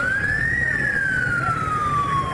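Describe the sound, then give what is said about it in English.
An ambulance siren wails as it rushes to a hospital in Yaoundé, Cameroon. A single loud tone climbs briefly, then slowly glides downward over a steady rumble of traffic noise. “This ambulance rushed to the Yaounde General Hospital last month”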